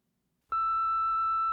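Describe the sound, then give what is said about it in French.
A single steady electronic beep from an answering machine, loud and even in pitch, cutting in after a moment of silence and holding for about a second. “Oh, zut! C'est encore ce répondeur.”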